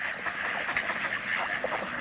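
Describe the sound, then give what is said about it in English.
Ducks floating in a sheltered bay on a cold night give a few faint, soft quacks over a steady background hiss. “Ducks float in protected bays.”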